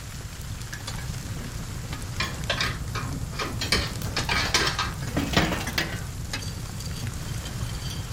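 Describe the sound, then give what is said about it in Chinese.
Metallic clattering as someone stokes a coal stove to make the fire warmer: repeated scraping and knocking strikes, irregular and moderately loud, over a steady crackling hiss, with no voices. “我把炉子再通暖和一点。”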